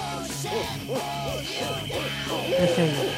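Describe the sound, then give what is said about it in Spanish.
An owl hoots in a repeated series of soft, arching calls. The owl was found trapped in a family's Christmas tree. The hoots come one after another in a steady rhythm over a low, constant background. “Sí, ahí está el búho.”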